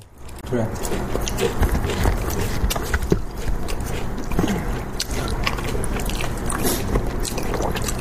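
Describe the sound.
Chicken being eaten, with steady wet chewing, biting and crunchy, squishy mouth noises running continuously and fairly loud from start to finish.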